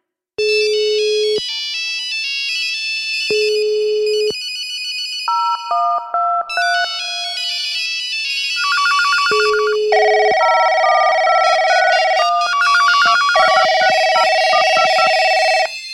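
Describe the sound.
Electronic telephone ringtone sounding during a phone call: bright synthesized tones begin as separate spaced beeps, then run into a continuous, loud, repeating melody.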